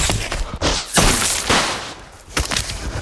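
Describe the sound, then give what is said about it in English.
Magic wand spells fired during a chase, heard as several loud, sharp blasts in quick succession. Each burst carries a broad, crackling, whooshing noise, with rushing sound filling the gaps between shots. “The snatchers fire with their wands and start gaining on them.”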